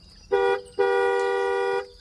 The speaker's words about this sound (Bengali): এমন সময় কানে এলো গাড়ির হর্ন